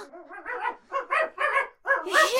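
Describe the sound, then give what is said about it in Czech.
A dog greeting its owner gives an excited run of barks and yips, several short, loud, high harmonic bursts in quick succession, with no talk over them. “pejsku, můj zlatý. Počkej, nech to, neolizuj mě.”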